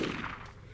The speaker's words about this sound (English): okay, number two is your Glock 19, which takes 9mm ammo and sounds like this when fired.